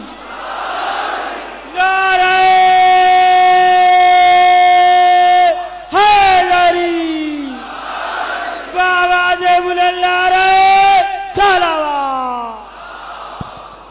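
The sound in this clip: A crowd answers the Naara-e-Haidari chant: a single voice holds a long, sustained, loud call, then the massed shout breaks in and a crowd roar follows, with the call-and-response exchange happening twice.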